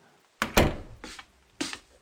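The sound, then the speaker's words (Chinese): A door is pushed shut with a soft thud, followed by a few more quiet thumps and knocks spaced out over the next second or so, all faint against near silence. “云建威关上门走过去”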